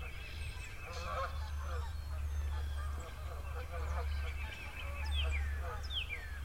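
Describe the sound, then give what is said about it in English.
A flock of about twenty geese flying in single file, honking many times in overlapping nasal calls over a steady low rumble. “it's a line of about 20 geese. They're in single file.”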